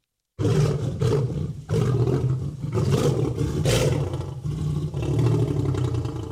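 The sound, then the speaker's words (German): A lion roars: after a short silence, a loud, deep, rumbling roar begins and continues in heavy, grinding waves with a few brief breaths between them. “Na klar, das ist ein Löwe. Nur ein Löwe kann so gefährlich brüllen.”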